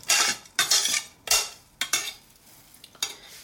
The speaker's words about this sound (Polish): I za chwilkę przemieszam ziarenka i przerzucę je do sałatki.